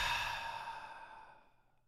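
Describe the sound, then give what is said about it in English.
A single deep exhale out through the mouth during a guided breathing exercise, a breathy whoosh that starts fairly strong and steadily fades to silence over about two seconds. “Just encourage you to take a breath in. Then exhale all the way out through the mouth.”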